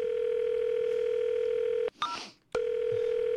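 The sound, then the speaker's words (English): A steady telephone tone on a call to a coffee shop, broken once by a short, noisy burst before the same tone resumes. “Let's call the Starbucks in Starbucks on Brand Avenue.”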